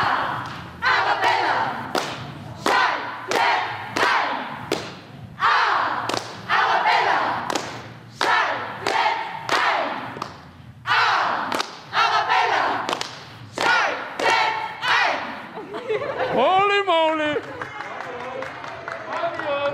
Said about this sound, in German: Aber es klingt richtig gut bei den Cheerleadern vom Austria Cheerleading Team. Und die haben da Training.